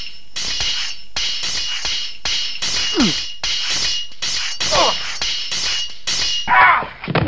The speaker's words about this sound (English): Hamlet falls, wounded, but seizing Laertes' sword, cuts him with it.